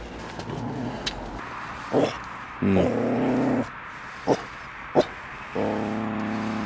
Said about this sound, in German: Kann ja ein bisschen mehr kläffen. Genau, Hundi ärgern.